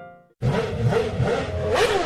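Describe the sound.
A motor scooter engine revs as the throttle is opened, a loud, dense roar that starts abruptly after a short gap and holds steady, buzzing and strained, to the end.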